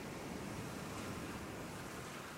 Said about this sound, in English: and then you're out, sitting by the sea, watching the surf.